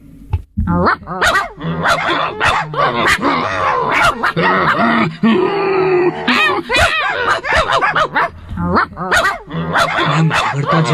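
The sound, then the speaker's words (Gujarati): Two dogs growling and barking at each other in a fierce, nonstop exchange, many sharp barks mixed with snarls and low growls, loud and dense throughout. “એકબીજાને ઘૂરકીને સામ સામે ભસવા લાગ્યા, ભસવા લાગ્યા, અટકે જ નહીં.”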